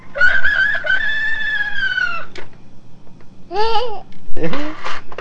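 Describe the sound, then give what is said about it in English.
Rooster crowing from a children's pull-string animal-sound toy: one long, strained crow of about two seconds, then several shorter babbling vocal bursts. “The rooster says,”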